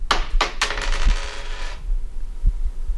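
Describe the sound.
A tossed coin lands with three quick metallic clinks, followed by a bright ringing shimmer that fades out in under two seconds, leaving only a low background hum.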